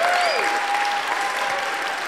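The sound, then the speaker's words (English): An audience at a church worship service applauding in a steady, sustained wash of clapping, with a faint held tone running above it. “Can we just give Jesus a shout of applause and victory?”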